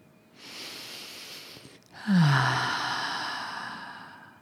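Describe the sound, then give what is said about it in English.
A deep breath: a long, soft airy inhale, a brief pause, then a louder, extended sighing exhale with a low voiced note at its start that slowly fades. “And then take a breath.”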